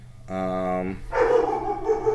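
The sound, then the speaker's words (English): A dog barks once in a single drawn-out, tonal bark, and a voice talks just after it. “Dog barking. Sorry for the dog barking, people. There's a dog.”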